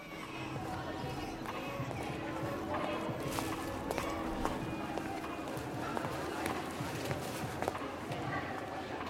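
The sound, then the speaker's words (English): Footsteps of a woman walking back to a flat: a faint, steady run of light, regular steps over continuous background noise. “She walks back to the flat.”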